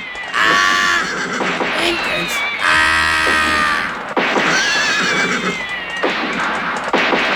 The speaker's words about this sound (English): saddle up your horse, man.